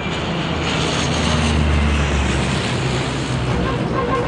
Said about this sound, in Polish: samolot o skrzydłach rozłożystych jak szybowiec przetoczył się przez betonowy pas amerykańskiej bazy lotniczej w Peszawarze w Pakistanie i o 5:36 wzbił się w powietrze.